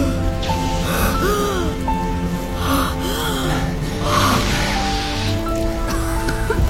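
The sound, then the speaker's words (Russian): Medicine breathed in from an asthma inhaler, heard as a few sharp, gasping inhalations over a continuous musical background. “Достает ингалятор. Вдыхает лекарство.”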